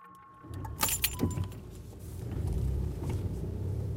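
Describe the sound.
Low car engine rumble as a police commander's vehicle heads toward a border crossing on the Evros river; a few jangling clicks come first, then the rumble swells and holds steady.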